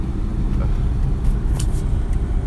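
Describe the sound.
A car is driven along a road, with steady, loud, low engine and tyre rumble throughout and a faint hiss above it. No talking.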